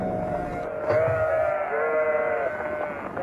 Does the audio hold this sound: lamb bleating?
yes